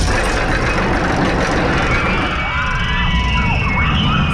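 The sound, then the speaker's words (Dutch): A roller coaster in Appelscha racing past: a loud, unbroken roar of rumbling wheels with thin whining, screeching tones sliding over the top for the whole stretch. “Wat een heerlijk geluid is dit. Het is het geluid van de Appelscha achtbaan.”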